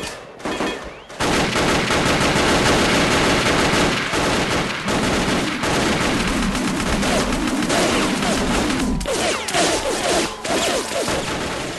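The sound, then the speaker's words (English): Rifle gunfire fills an ambush on a foot patrol through an Iraqi market town in a virtual reality combat simulation: loud, dense bursts of many rapid shots run almost continuously after a brief opening moment, with scattered crack-like reports over the sustained fusillade. “And you can hear different kinds of rifles firing in that scenario.”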